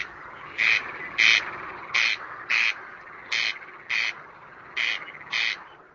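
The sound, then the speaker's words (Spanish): Rasping calls of a corncrake, a rare bird in the Czech Republic: eight harsh, dry bursts falling into four evenly spaced pairs, a steady double-rasp rhythm heard alone with no talk. “La voz del ave rey de codornices amenazada por la música tecno”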